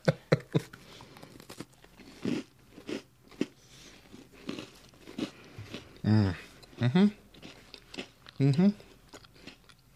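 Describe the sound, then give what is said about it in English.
Someone eats a graham cracker cookie with chocolate and marshmallow layers inside, making several crisp crunching bites and moist chewing. Voices talk briefly in between. “The graham cracker cookie. They're very nicely designed, too. Ready? And, I just want to eat a cookie.”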